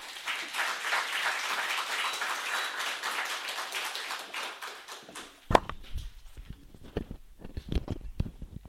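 Evening lecture audience applauds to welcome the lecturer with dense, steady clapping for about five seconds. The clapping stops abruptly, and a few scattered taps and knocks follow.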